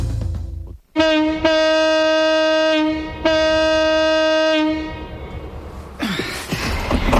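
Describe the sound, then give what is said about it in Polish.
A car horn honking in a parking lot sounds two long, steady, loud blasts separated by a short gap, followed by low rumbling. “Po co trąbisz? Przecież to parking.”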